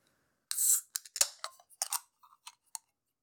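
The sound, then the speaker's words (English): A Mr. Pumpkin beer from Mother's Brewing Company is opened with a short hiss, followed by several sharp clicks and small snaps. The sounds are quiet, with silence between them. “And now I'm about to open Mr. Pumpkin by Mother's Brewing Company.”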